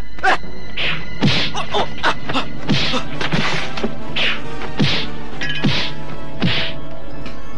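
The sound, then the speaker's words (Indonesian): Punches land on a body in a torture chamber, a rapid, relentless series of many sharp, heavy thwacks with short gaps between blows. “Pukulanku amblas seperti memukul kapuk.”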